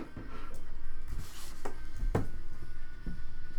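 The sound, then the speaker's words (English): Pen scratching on paper as notes are written during a tabletop role-playing game session: a steady, fairly loud scratchy rubbing with a few sharper strokes mixed in, continuing throughout. “I'm in the process of writing it down, but I will come back to that.”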